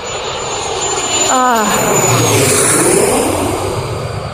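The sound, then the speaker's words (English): An airplane's engines roar loudly as it takes off after tower clearance, a dense, sustained rumble with a high whine layered on top that holds steady throughout. “The tower has cleared us for takeoff.”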